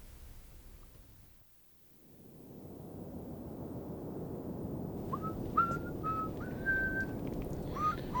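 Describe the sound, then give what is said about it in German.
Someone whistles a simple tune in short, clear notes over a steady background hiss and rumble; the whistling enters partway through, after a quiet stretch. “Könntest du nicht mal was anderes pfeifen?”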